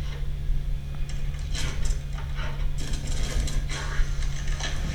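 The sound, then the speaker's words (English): An elevator mechanism grinds as it arrives, with a steady low mechanical hum beneath a few rattling, ratchet-like clanks and scraping bursts at a moderate level. “It's an elevator. Somebody sent those dead fucks up here to get us. Now, there's no controls inside, but there's maintenance overrides in there.”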